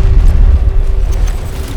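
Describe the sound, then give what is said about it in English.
A grenade explosion in a video game, a loud, deep boom with a heavy rumbling low end that fades slowly over a couple of seconds. “Throwing grenade! Get back!”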